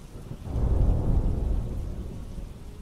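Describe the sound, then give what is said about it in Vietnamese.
Thunder during a rainstorm: a deep, loud rumble that swells quickly and rolls on for about two seconds before easing off, with rain noise beneath it. “Tiếng sét xé lòng một lần nữa lại vang lên”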